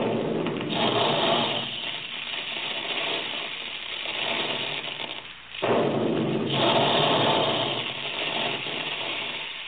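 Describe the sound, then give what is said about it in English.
Big puffing guns at a cereal plant making puffed wheat and puffed rice give a harsh, continuous mechanical roar with rattling texture. It dips briefly past the midpoint, then surges back loud. “That's the way the big guns in the Quaker plant sound when they're making puffed wheat and puffed rice.”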